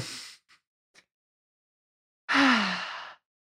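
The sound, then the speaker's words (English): A deep breath: a long, loud, airy rush of breathing lasting about a second, coming after a few fainter, shorter breath sounds and a pause. “I'm going to actually encourage you to take a deep breath right now.”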